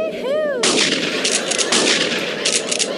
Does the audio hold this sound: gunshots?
yes